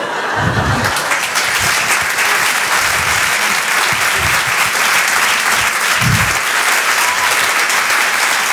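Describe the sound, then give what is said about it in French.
Audience applause for a stand-up comedian at a comedy show, loud and sustained throughout, with a dense wash of many hands clapping and a few low bursts of crowd noise rising within it. “Vous pouvez l'applaudir très très fort, Flora Amara sur Rire et Chanson. Bravo Flora.”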